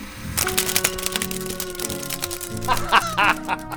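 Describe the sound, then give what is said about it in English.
Mechanical whirring from a 2-inch tape machine running in a recording studio: steady tones layered with many rapid clicks and chirpy squeaks, moderately loud throughout. “And then my favorite thing of all, the 2-inch tape machine. And there's a sound it makes I want you to catch.”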